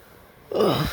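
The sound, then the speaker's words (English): Throat clearing, a single low, rough voiced rasp that starts abruptly after half a second of quiet and grinds on loudly for about half a second before cutting off. “oh my god, my throat just doesn't want to be clear.”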